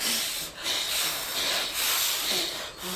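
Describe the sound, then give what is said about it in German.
People blowing on a freshly caught fire: several breathy, hissing bursts of air separated by brief pauses, fairly quiet and without talk. “Oh, es brennt schon. Helft mir blasen.”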